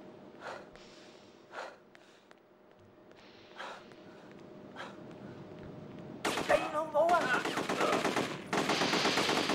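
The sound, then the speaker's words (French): AK assault rifle fire in a video game: a few isolated single shots spaced seconds apart, then loud rapid automatic bursts rattling off in long strings. “Oh, le AK Oh, le petit AK”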